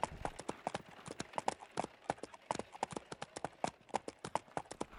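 Horses clip-clop while pulling a wagon around Devil's Tower. Many sharp hoof strikes fall in a quick, steady rhythm, with the clatter going on without a break.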